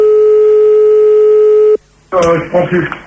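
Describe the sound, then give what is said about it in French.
A steady, loud telephone line tone hums for nearly two seconds while a caller is rung back during a radio call-in, then stops sharply; after a brief gap, people talk. “On rappelle Sandy pour lui dire au revoir quand même.”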